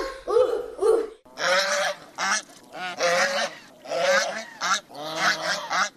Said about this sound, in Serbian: Je li to guska?